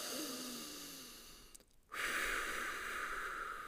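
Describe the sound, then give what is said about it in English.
A long, deep breath is taken slowly as a calm breathing exercise during a morning routine. It is faint and airy, a drawn-out hiss broken by a short pause before a stronger, brighter breath continues, with no talking. “just do 10, 20, 30 long breaths like that”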